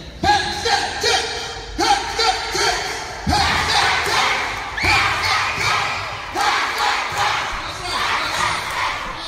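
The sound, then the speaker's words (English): Elementary school kids chanting together at a school event, a loud crowd of children's voices shouting in rhythmic, repeated bursts that continue steadily throughout. “I've kind of known over the years that the elementary school kids, they're big on the chant. They're making some noise.”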